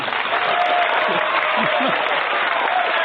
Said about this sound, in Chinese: 谢谢谢谢谢谢大家热情的掌声啊！当然掌声要是再热烈一点就更好